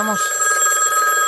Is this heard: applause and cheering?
no